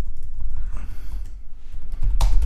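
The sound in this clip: Computer keyboard typing while a message is written to ChatGPT: a steady run of soft, quick keystroke clicks over low background rumble, ending in a louder, denser burst of noise.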